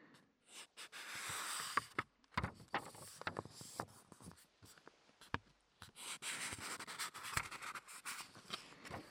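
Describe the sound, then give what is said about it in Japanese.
Pages of a homemade book from around 2016 being turned, heard as faint, crinkly paper rustles and scrapes in a few uneven bursts, with short quiet gaps between them. “うまくめくれない。”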